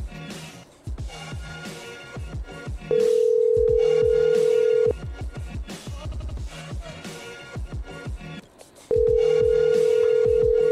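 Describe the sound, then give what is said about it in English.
A cell phone rings with a steady, sustained electronic tone in two long bursts, each about two seconds, loud over busy background music. “Answer your cell phone. That's rude.”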